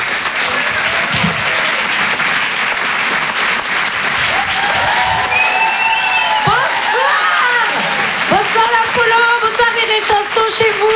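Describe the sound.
Applause fills a live comedy club as the audience claps loudly and steadily to welcome a comedian onstage. Cheers and whistles rise over the clapping in the second half.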